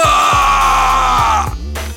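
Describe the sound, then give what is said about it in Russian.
A man screams in pain after being stabbed in the back with a knife. It is one loud, drawn-out cry whose pitch sinks slowly, then breaks off into a rougher, lower sound. “Моя рука вонзила нож в спину брата. Он заорал от боли.”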